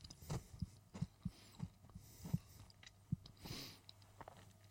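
Quiet chewing of a chocolate biscuit, heard as soft, low thumps and muffled mouth sounds at an irregular pace, with no talking.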